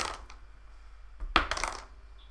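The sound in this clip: A twelve-sided die is rolled during a tabletop role-playing game, making a short burst of quick, hard clicks and rattles as it tumbles, with fainter clatter just before it.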